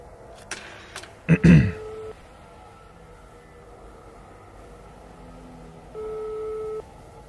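A telephone call is placed: a few clicks and a short rattling clatter as the receiver is handled, a quiet pause, then a single steady line tone of under a second.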